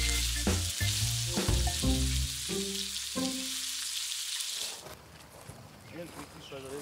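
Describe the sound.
Lamb and chicken skewers sear in a hot pan with a loud, steady hissing sizzle and a voice talking over it. The sizzle drops to a quieter crackle near the end.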